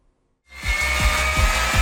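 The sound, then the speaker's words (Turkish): An electric drill rigged as a homemade meat mincer grinds meat. After a brief silence it starts with a loud, steady whine, and regular low thumps pulse beneath it as the mechanism turns. “Kıvrak zekasıyla bilinen Rizeliler matkaptan kıyma makinesi yaptı.”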